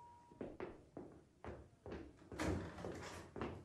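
Door sounds as someone goes to open the front door for an arriving guest: a run of soft thumps and clunks, then a louder, fuller clatter near the middle, with another thump near the end.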